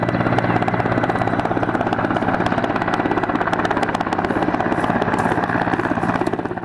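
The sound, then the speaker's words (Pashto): Helicopters flying over the central areas of the city of Lashkar Gah, on its outskirts a base of foreign and government forces: a loud, steady rotor and engine drone that holds throughout and eases slightly at the very end, with no voices. “د بوستوي ډګر په څنډو کې د میشتو بهرنیو ځواکونو او پاچې هلیکوپټر ساتونه کېږي چې د ښار پر مرکزي سیمو باندې ګرځي.”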